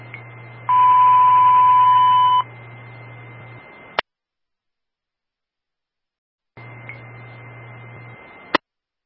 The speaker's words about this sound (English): This is the evening Zetron test cell company. Stand by for the box alarm tone, followed by the evening radio test on channel 2